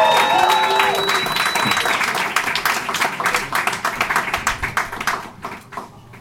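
A Portland comedy club audience applauding and cheering as a comic takes the stage, with dense clapping and a high whistle early on that thins into scattered, distinct claps and fades near the end.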